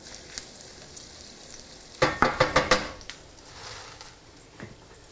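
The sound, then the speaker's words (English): Garlic scraped into hot olive oil sizzles sharply, with a quick cluster of loud crackling bursts partway through, then a softer, steady frying hiss. “when your oil is hot, you can smell the oliviness, which is nice, coming off. And I'm scraping in my garlic. You can hear that sizzling.”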